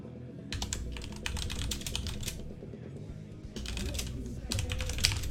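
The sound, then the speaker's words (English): Typing on a computer keyboard: many rapid, uneven keystrokes clatter in quick bursts, with short pauses between runs, over a steady low background hum. “I'm typing something out.”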